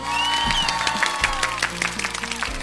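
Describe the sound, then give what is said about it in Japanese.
Applause from a group of people, dense, even clapping that continues through the whole stretch with a voice heard over it. “素晴らしい拍手”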